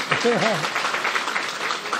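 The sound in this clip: Audience applause follows a speaker's remark about women bringing peace. The clapping is a steady, dense patter through the whole moment, with a voice talking over its opening half-second.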